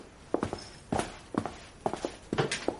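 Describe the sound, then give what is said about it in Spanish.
Footsteps of people climbing a staircase, a faint, uneven series of soft thuds and scuffs in small clusters, with no talk over them. “Suben unas escaleras. Cruzan la planta superior.”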